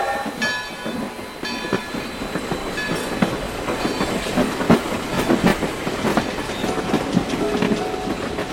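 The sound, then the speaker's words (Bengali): A train pulls away from a station with a steady rumbling roar and the rhythmic clickety-clack of wheels over rail joints, continuous and moderately loud throughout. “তাহলে এই train ছেড়ে দিল, যাই আমি।”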